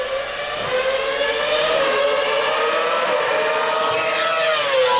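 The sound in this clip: A Formula One race car engine at Imola in 2022 gives a loud, sustained high-pitched whine that continues without a break for five seconds, its pitch wavering slightly, with no voices.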